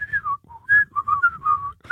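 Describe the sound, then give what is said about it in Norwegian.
A person whistles a tune alone, a clear bright melody in short phrases that glide up and down in pitch, with brief pauses between notes. “Så enten må vi sitte og plystre, eller så må vi late som vi har trompeter.”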